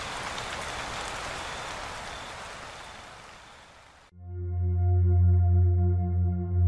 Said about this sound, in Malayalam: പക്ഷേ ഇതെന്തു മഴ! വേനലിൻ്റെ പാതി ദിനങ്ങളിലെ മഴ, വേനലിൽ ഒരു മഴ.